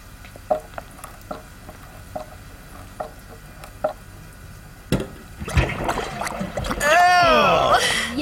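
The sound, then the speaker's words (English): Water gushes from an opened drain pipe into a wash tub: a few light taps and knocks come first, then a loud, broad rushing splash starts and grows through the final seconds. “A lot of water is going to pour out when I open this drain pipe. Will this wash tub work?”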